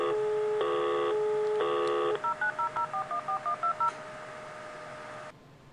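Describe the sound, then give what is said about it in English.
Telephone keypad tones as a phone is dialed: two longer tones, then a rapid run of short clear beeps over a steady tone that cuts off near the end. “Okay, I'm dialing, uh, calling Darnell.”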